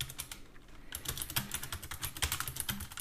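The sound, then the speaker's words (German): Someone types a search on a computer keyboard, giving many quick, light, irregular key clicks. A few taps come first, then a short pause, then a faster continuous burst of typing. “Oh, er hat's eingegeben. Oh, komm. Drück die Eingabetaste.”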